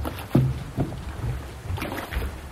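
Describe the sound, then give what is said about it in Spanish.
A small boat on open water as it sets off, with a few soft low thuds of water slapping the hull over a steady rush of wind noise, no voices. “No vamos a llegar a Japón en este barco.”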